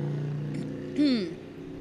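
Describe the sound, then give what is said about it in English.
A bike passes by with a motor whine whose pitch swoops downward as it goes past, rising briefly louder over a steady background hum before fading. “Waiting for the bike to go by. Yep. There goes the bike.”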